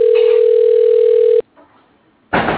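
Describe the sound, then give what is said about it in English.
Ringback tone of an outgoing phone call: a single steady, low-pitched ring lasting over a second, then near silence, then a sudden burst of noise. “He called me. I'm calling back.”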